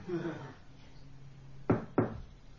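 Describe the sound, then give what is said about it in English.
Two sharp knocks on a door, close together and not very resonant, following some quiet talk. “It's me, this is not so resonant. My door knock tends to be, I think, fairly sharp”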